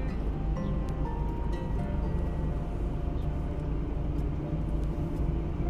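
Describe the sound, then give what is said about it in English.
A gas station air pump inflates a car tire with a steady mechanical drone: a continuous low rumble with a faint hum that holds an even level from start to finish. “Says out of order, but it works all the time. I never noticed. Yeah, it was there last time it said out of order. Try it again. We're trying to get air in the tire.”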